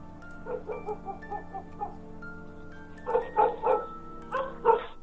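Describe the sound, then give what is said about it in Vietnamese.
Village dogs barking in many yelping barks: a softer run of barks first, then a louder, denser cluster, over a steady tonal hum. “Tiếng chó sủa inh ỏi trong xóm.”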